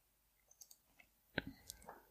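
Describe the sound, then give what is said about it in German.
A computer mouse clicking on a web link: a few faint, light clicks followed by one sharper, louder click and some softer ticks, with no voice. “Liste der sozialistischen Staaten. Klicke ich jetzt mal mhm. drauf.”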